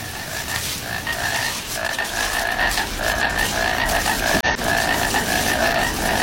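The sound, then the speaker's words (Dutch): A painted frog, also called a disc-tongued frog, croaks in a loud, continuous rattling trill that holds steady throughout, with no voices. “Even luisteren nog naar die schijftongkikker.”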